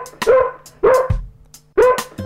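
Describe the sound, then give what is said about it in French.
A small dog yaps three times in sharp, high bursts with brief gaps between them, set within a children's song about a little dog at the bottom of the garden; a low steady hum runs underneath. “J'ai un petit chien au fond du jardin. Ce petit chien est mon grand copain. Et ce petit chien fait.”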